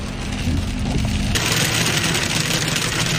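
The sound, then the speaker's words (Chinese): Expedition vehicles drive through dense falling hail: a steady engine rumble runs under a hissing, pattering wash that suddenly grows louder and brighter partway through and stays dense to the end. “密集的冰雹从天而降，考察组的车辆在冰雹中艰难前行”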